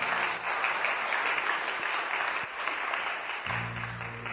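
An audience applauds the choir and worship team at a church service in dense, steady clapping that carries through and eases slightly near the end over a low hum.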